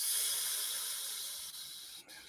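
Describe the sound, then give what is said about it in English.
Breathing out after holding the breath: a long, soft, airy hiss of exhaled air that slowly tapers off, with a couple of brief dips near the end. “you breathe through your nose. And you hold your breath at the top. And then you breathe out.”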